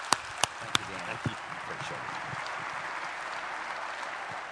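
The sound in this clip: An audience at Shades Mountain applauds to welcome a guest speaker. A few sharp, separate claps open the sound, then it settles into steady, dense clapping at an even level that lasts to the end.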